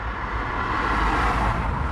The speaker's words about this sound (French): Des files de camions qui foncent à toute allure et un vacarme assourdissant.